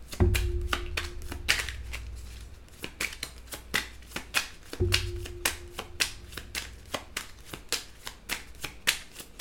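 Tarot cards from the Under the Roses deck being shuffled and pulled. Two longer riffling bursts, one at the start and one midway, are each followed by many crisp, irregular card snaps and slaps.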